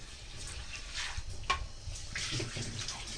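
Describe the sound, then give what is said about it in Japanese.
Washed rice is tipped into a colander to drain, with a steady wet hiss of running and splashing water and a brief sharper clatter midway. “そしたらザルに、お水を切るためにザルにお米を移します。”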